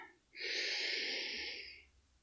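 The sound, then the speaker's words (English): A long, deep inhalation drawn steadily into the belly during a breathing exercise, a soft even rush of air lasting about a second and a half before fading. “let's do one last long breath. Straight to the belly, feeling the lungs.”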